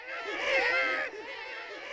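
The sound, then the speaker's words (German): Stage chorus of voices imitating babies crying in a theatre production: many overlapping high wailing cries swell loudly for about a second, then drop to a softer, continuing tangle of whimpering voices. “Mit chorischem Babygeschrei wird Jean-Baptiste Poquelin alias Molière im Januar 1622 zur Welt gebracht.”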